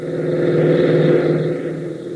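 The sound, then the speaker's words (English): A jeep races across an airfield, its engine making a loud, steady, rumbling drone with no voices. “Then Tank and Gale race into the hangar, reappearing within seconds in a jeep, and race across the field.”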